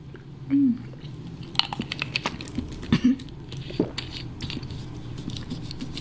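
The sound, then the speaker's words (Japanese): Water sipped and swallowed, heard as a few soft, close mouth sounds and gulps spread through a quiet stretch with low background murmur. “さあお水を一口飲みましょうね。まずはお水を、よし、私もいただきます。”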